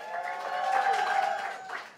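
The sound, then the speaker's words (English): Audience clapping at a live improv comedy show, a steady wash of hands that holds for about two seconds, swells slightly in the middle and eases off toward the end. “Clap it up.”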